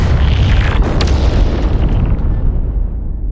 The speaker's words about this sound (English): Lastly, the reactor would explode.